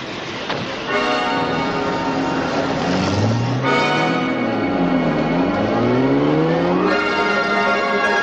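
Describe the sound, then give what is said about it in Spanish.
An official car drives through the streets of Rome, its engine rising and falling in pitch as it moves, with steady ringing bell-like tones sounding above it throughout. “Poco después, monta en un coche con destino al Vaticano.”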